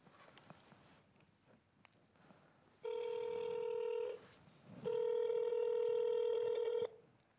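An outgoing telephone call rings with two long, steady, buzzing ringback tones separated by a short gap; the second tone is louder and longer. Faint scattered taps and rustles come before the ringing.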